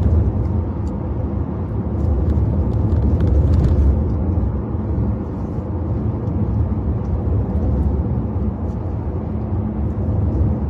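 Steady road and engine rumble of a car driving at about 51 miles an hour, a continuous low drone with little change in loudness.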